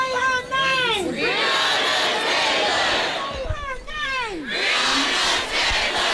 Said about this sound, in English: When you hear the word protest, different sounds might come to mind. Sometimes protest sounds like this.